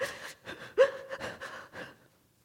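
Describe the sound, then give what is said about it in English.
A voice imitates the breathless, gasping sobbing of someone crying too hard to catch his breath: several short, sharp, hitching inhales in an uneven rhythm, fairly faint, ending in quiet. “he's crying so hard he can't catch his breath. We used to call it the sups-sups”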